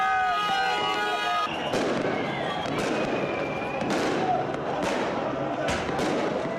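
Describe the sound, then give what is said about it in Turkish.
Fireworks burst during a street celebration in Cizre, Şırnak, after a football win. Several sharp bangs sound with crackling tails over a busy background, and voices are heard among them. “Dakikalarca havai fişek sesleri yankılandı.”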